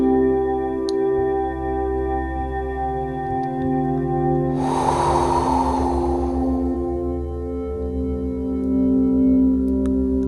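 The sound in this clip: A deep exhale during a guided breathing exercise: one long, airy breath out of about a second and a half, rising over a steady sustained tonal drone.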